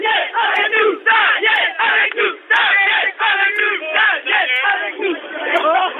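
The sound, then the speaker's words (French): A street protest crowd against the CPE employment law shouts loudly and continuously, many voices yelling together in surging waves with only brief dips. “Alors, je vais leur demander de faire du bruit, pour vous, pour Daniel Mermet, c'est le répondeur de Daniel Mermet, faites-vous du bruit.”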